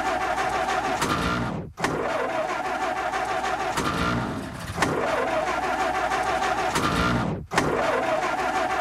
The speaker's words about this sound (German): Dann wollen wir jetzt aber mal den Wagen anlassen, hm?